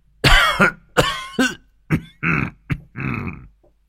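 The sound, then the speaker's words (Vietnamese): Dry coughing comes from an old man clutching his chest: several harsh, hacking bursts, some short and sharp and others rougher and drawn out, with nothing else heard in between. “ôm ngực ho khan mấy tiếng”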